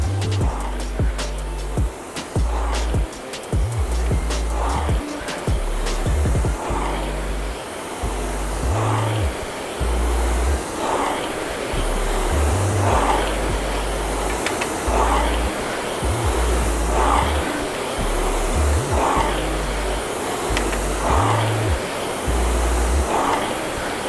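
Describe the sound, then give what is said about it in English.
A RowErg rowing machine flywheel whirs fast in a steady airy whoosh, with a regular surge every couple of seconds as each stroke drives it, continuing evenly throughout. “flywheel spinning fast. It takes skill to lock in and make it spin faster.”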